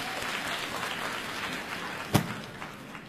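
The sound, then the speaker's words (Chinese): Audience applause at a comedy and variety stage show, welcoming a 12-year-old girl back for an encore: a soft, even wash of many hands clapping, with one sharp, louder crack standing out shortly before the end. “大家伙欢迎， 掌声有请。”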